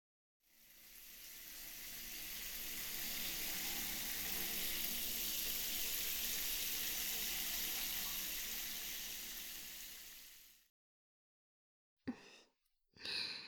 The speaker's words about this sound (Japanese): じゃあ洗い流しちゃいますね。